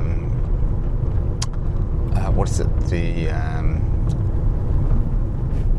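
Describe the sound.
A car is being driven, with a steady, loud, low engine and road rumble throughout. A voice talks over it.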